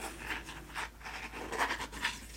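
Pen scratching on a paper form as the date is filled in. Soft, quiet runs of short strokes come in a few bursts, with no talk.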